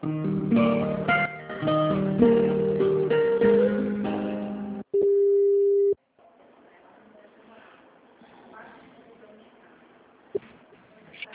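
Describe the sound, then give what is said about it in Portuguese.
A telephone busy signal sounds after a dropped call: a single loud, steady tone lasting about a second, cutting in after other sounds and then giving way to faint line noise with a brief click near the end. “Oi, caiu a ligação. Só um pouquinho.”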